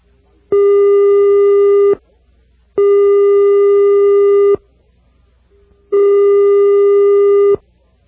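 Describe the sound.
A telephone busy signal sounds after a caller's line drops: three long, loud, steady tones separated by short silences.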